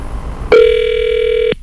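Telephone ringing on a call to a hotel: a single loud, steady electronic tone lasts about a second and then cuts off abruptly.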